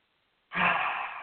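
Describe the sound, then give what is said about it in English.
A person takes a single deep breath that ends in a soft, airy exhale like a sigh. It starts after a moment of silence, stays quiet and fades gradually. “Take a deep breath in and out”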